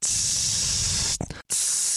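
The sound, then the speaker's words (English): Hiss of Glade air freshener, a knockoff designer fragrance, sprayed onto a person from a long atomizer. A loud, steady jet runs for over a second, breaks briefly into sputtering, falls silent for a moment, then resumes as a second continuous burst. “it was essentially spraying myself with Glade, you know, like a constant spray.”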